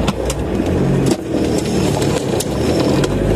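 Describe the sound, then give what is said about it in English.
Car driving, with a steady dense engine and road rumble and a few faint clicks and knocks scattered through it, no voices. “It's time to go to the Tedmobile. Let's go. All right, let's get driving.”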